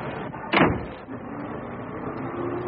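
A car door shutting as people climb in on a snowy day: one dull, solid thud that rises briefly above a steady low rumble of background noise.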